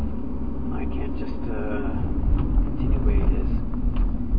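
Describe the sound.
The steady low road rumble of a car being driven runs under a voice talking throughout, with the engine and tyre noise holding an even level without breaks.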